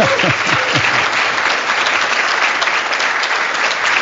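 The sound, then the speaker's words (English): A loud, dense round of applause from the audience at a Manchester mayoral debate, honoring the candidates. A voice is heard briefly at the start before the clapping continues evenly. “Let's give one final round of applause to our candidates, Ms. Craig.”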